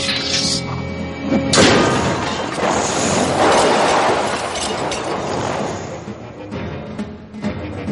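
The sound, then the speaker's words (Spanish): A heavy crash as a white stone pawn smashes a black pawn with its sword in a giant wizard's chess game, a loud impact burst rising out of a dense, rumbling background that continues afterward. “Un peón de las negras obedece a Ron y cuando llega a su posición, el peón blanco lo destroza con su espada.”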